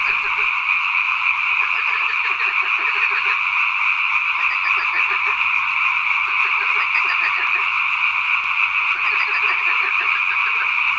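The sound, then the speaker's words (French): European tree frogs chorus as a steady, dense background, with a marsh frog's laughing call in the foreground: rapid, pulsed, chuckling bursts that recur a few times over the constant trill. “La rainette verte, c'est un peu le bruit de fond qu'on entend. Et on entend cette espèce de ricanement au premier plan qui est la grenouille rieuse.”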